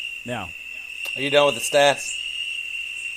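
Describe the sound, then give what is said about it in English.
Recorded crickets play back as a steady, high-pitched trill that continues throughout while people talk over it. “To be honest, I just played crickets during the whole time you were reading the stats.”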